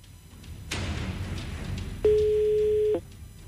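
A telephone line tone during a call: one steady mid-pitched beep lasting about a second, loud and alone. It follows a stretch of hissing line noise, and no voices are heard.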